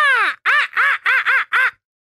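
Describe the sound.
Six loud, harsh caws from a crow in a quick series, the first sliding down in pitch, followed by silence.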